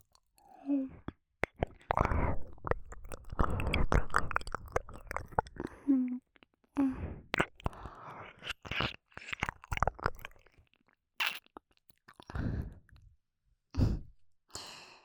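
Wet mouth sounds come in many soft clicks, smacks and squelches, mixed with breathy sighs and whisper-like exhales, all at a faint, intimate level with short pauses between bursts.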